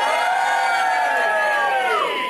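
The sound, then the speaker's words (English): Audience cheering and whooping at the Cavendish Arms in Stockwell, London: a loud, sustained chorus of voices that holds steady, then slides downward in pitch near the end. “Can I have a cheer from the audience?”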